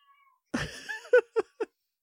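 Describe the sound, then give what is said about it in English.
A talkative cat meows: one longer, drawn-out call, then three short, clipped meows in quick succession, heard alone with no talk. “I love talkative cats. They make me so happy. He's so talky.”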